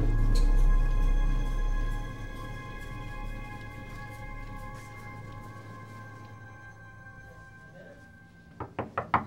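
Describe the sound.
A few quick knocks on a door come at the very end, after a long stretch of steady sustained tones with no knocking.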